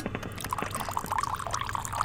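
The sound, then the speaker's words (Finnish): Coffee poured from a pot into a cup, with only a little left in the pot: a faint, continuous liquid trickle over low background noise, lasting about two seconds. “saako olla lisää kahvia vielä? Tuossa olisi pannussa liru jäljellä vielä. No, kaada tohon joo, niin ei tarvi pois heittää.”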